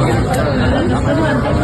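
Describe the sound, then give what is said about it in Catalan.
Thousands of concert fans outside the Olympic Stadium make a steady, dense babble of chatter. The many overlapping voices form a continuous loud murmur that stays level through the brief moment. “Aquest és el so de milers de fans que ja omplen els accessos a l'Estadi Olímpic.”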